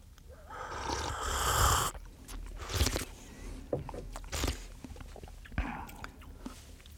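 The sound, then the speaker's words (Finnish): Chewing and crunching as small tastes of an unknown dark-roasted bean are bitten. A long rustling crunch opens, then several sharper bites and quieter chewing follow, all fairly soft. “mitä papua tai muuta tämä on, mutta suostuit tähän testiin, niin voidaan aluksi molemmat ottaa pienet maistiaiset ja sitten kuvailla, että mitä oikein maistuu.”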